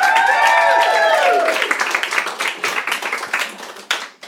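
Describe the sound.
An audience applauds and cheers for a performer. Loud whoops and massed clapping come first, then the clapping thins into separate, fading claps.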